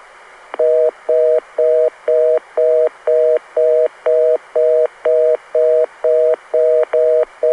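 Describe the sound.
Reorder tone on a Los Angeles telephone switch: many short, evenly spaced dual-tone beeps at roughly two per second, loud and alone, with a slight stutter in the rhythm near the end.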